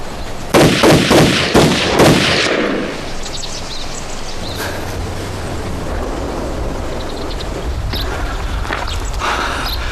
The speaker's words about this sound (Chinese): 开枪！ 唐班长，这枪打出去可就回不来了。